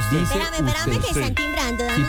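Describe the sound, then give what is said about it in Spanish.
A doorbell ringing in a home, an electronic tone held steady beneath people talking. “Espérame, que sí. Están timbrando.”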